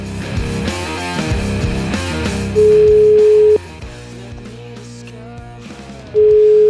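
A telephone line tone while calling someone: two long, steady mid-pitched tones, each lasting about a second, sounding over quieter background music.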